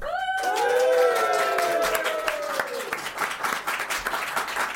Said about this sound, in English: You might hear live audience. Yeah, it's live.